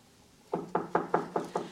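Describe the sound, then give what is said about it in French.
Knocking on a door: six sharp raps at an even, unhurried pace. They are moderately loud and heard alone, with no talk. “Qui frappe ainsi?”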